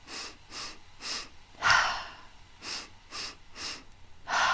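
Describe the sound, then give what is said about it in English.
Breathing exercise: three short, sharp sniffs in through the nose, then one full, breathy exhale out through the mouth. The pattern runs twice in a steady rhythm. “it's 3 short breaths in through the nose and 1 full exhale out through the mouth. So it's gonna sound like this.”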